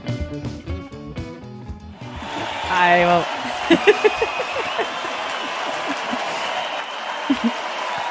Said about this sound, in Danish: Sådan en skøn applaus. Jeg tænkte lige, vi skulle starte den her dag af med lidt applaus og lidt ros til os selv.